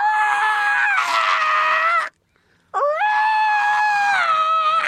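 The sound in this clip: A voice imitates a toy dinosaur's loud roar with two long, sustained, harmonic screeching wails separated by a brief silence. The second wail swoops upward at its start, then holds steady and loud.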